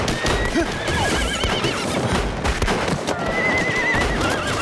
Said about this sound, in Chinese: 是啊，这几匹马儿真是不错。